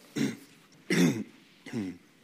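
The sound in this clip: Three loud throat-clearing coughs from a man with allergies during a church sermon, each a short rough burst separated by brief pauses, with no speech between them.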